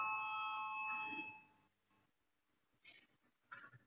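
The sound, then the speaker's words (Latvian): Parliamentary voting bell giving a faint, steady electric tone for about a second and a half before cutting off, followed by near quiet with a couple of soft, brief noises. “Lūdzu, zvanu, balsosim par 9. deputātes Indriksonas priekšlikumu.”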